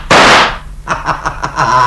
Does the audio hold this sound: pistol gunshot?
yes